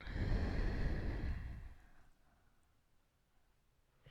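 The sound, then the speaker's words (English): A long, slow breath taken during a yoga warm-up makes a soft, airy rush that holds for more than a second and then fades into quiet. “So, one long, slow breath in through your nose. You know, open your mouth and let it out.”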